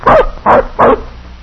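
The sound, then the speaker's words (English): A young puppy barks three times in a quick, evenly spaced series of loud, short, mid-pitched yaps, with a brief quiet tail after the last one. “Say, this dog don't look big enough to travel with a pack. He's still a puppy.”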